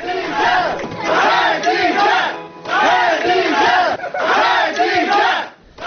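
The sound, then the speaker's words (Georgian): Crowd chanting in unison outside the Sabail district court in Baku, where friends of a detained journalist gathered: four loud rhythmic chanted phrases separated by short breaks. “ეს შეძახილები კი შარშან 5 დეკემბერს ისმოდა ბაქოში, როცა ხადიჯას მეგობრები სამბაილის რაიონულ სასამართლოსთან შეიკრიბნენ”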